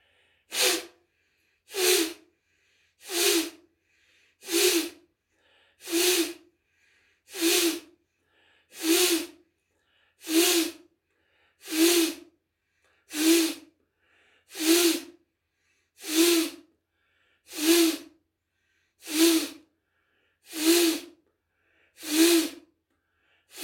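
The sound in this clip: Forceful pranayama yoga breathing: a long, regular series of sharp, hissing nasal exhalations, each a brief loud burst roughly every second and a half, with no talking.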